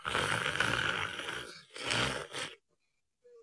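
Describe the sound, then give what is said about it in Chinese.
A storyteller's voice imitates an old man's soft snoring, producing a few rasping, breathy snorts: one long drawn-out rattle, then shorter ones, with no spoken words. “身子一暖和，这老头就手在那儿就打上小呼噜”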